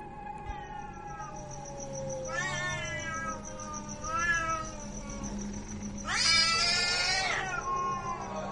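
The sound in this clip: A cat perched on a window growls and yowls in a few long, wavering, drawn-out cries, loud and mournful, with the last one the harshest and strongest. A thin steady high tone runs underneath.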